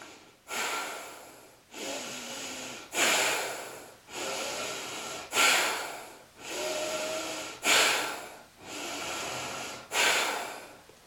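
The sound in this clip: Forceful breathing through the nose during a yoga exercise done with the tongue out and the root lock engaged. The breaths come as a steady, even train of strong, hissing rushes, each about a second long, with no talk.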